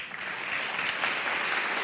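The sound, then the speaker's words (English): Audience applause at a political talk on the Middle East, a dense and even wash of many hands clapping that holds steady at moderate loudness for the whole moment. “the fact that that gets applause”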